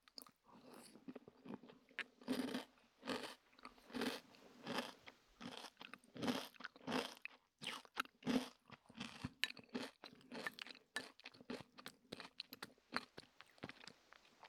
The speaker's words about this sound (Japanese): 私普段こういうのあんま食べなくて、今初めて食べたんですが